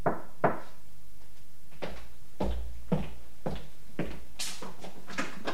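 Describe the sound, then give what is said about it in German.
Knuckles knock on a door at the top of a back staircase, giving a series of dull, hollow thuds at uneven intervals that sound fairly soft over a low steady background. “stieg die Hintertreppe hinauf und klopfte. Wie verabredet, dreimal.”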